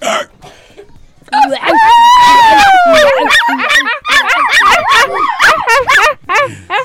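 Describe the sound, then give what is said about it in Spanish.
A dog yips and whimpers in an animal-guessing game, giving many quick, high, wavering cries that run loud and almost without pause after a quiet start. “¿Qué animal? ¡Un perro!”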